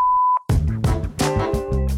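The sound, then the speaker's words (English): A voicemail beep: one pure, steady high-pitched tone lasting just under half a second. It stops abruptly and busier, louder sound follows at once. “If you have some feedback for us, leave it after the tone.”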